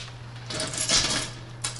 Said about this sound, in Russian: Ключ от почты. Вот мы сейчас им, ничего не трогая руками.